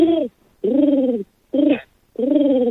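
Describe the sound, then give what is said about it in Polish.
A voice imitates a lovesick pigeon's morning cooing: four warbling, low-pitched hooting phrases with short pauses between them, heard alone. “Pojawił się gołąbek pokoju. Proszę państwa, no i ten gołąb to jest prawdziwie zakochany gołąb, tak grucha o poranku.”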